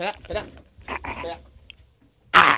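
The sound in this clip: A dog in a stealth video game gives a few short, raspy, breathy vocal bursts, like yelping or laugh-like panting, separated by quiet gaps. A louder, harsher burst cuts in near the end.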